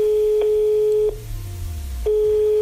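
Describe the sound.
Telephone tone heard while a call is being dialed. A steady, unbroken electronic tone cuts off after about a second, leaves a short quiet gap, then starts again at the same pitch. No voices.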